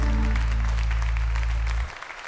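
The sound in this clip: Applause from an audience at a live church worship service. Many hands clap over a sustained low musical tone, which cuts off shortly before the end, leaving thinner clapping.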